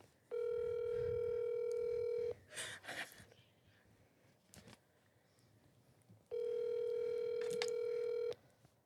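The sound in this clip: A phone call rings unanswered: two long, steady buzzing ringback tones about four seconds apart, with quiet breathing and rustling in the gap between them.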